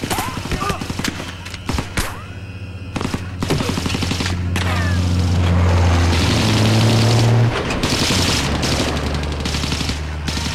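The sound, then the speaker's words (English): Gunfire in a street battle between refugees and the army, with armed vehicles speeding past: sharp shots in bursts over a heavy, loud engine rumble that swells and holds through most of the stretch. “A battle is taking place between the Fugees and army. Two men are shot. Armed vehicles drive past at speed.”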